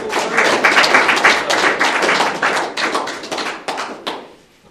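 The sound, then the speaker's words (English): An audience breaks into loud applause, many hands clapping densely and steadily before thinning out and fading near the end. “I think we'll give a resounding clap.”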